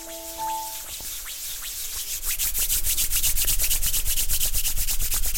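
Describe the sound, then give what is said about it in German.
Hands rub briskly together during a guided relaxation exercise, a dry, rasping swish that settles into fast, regular strokes and grows louder. “Genau, und dann die Hände aneinander reiben.”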